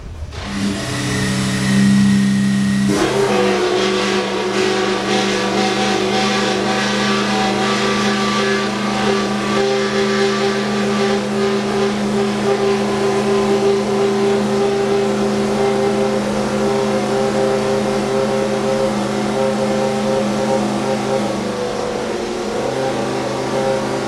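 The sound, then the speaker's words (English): A Williams Renault racing car engine fires up at the Goodwood Festival of Speed. A brief lower hum gives way to a loud, harsh, buzzing roar that holds steady with revving throughout. “They're just about to start up the Williams Renault that Jacques Villeneuve drove. So I just thought it might be nice to have a bit of sound while I'm waiting for Jamie.”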